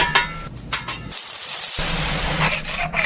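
Food fries on a bodega grill at a Red Hook sandwich counter, a continuous sizzling hiss that holds steady and fairly loud throughout.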